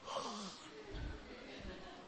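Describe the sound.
A person yawning in a classroom-style talk, a breathy, drawn-out exhale that opens with a low voiced tone sliding downward, followed by softer airy breath noise.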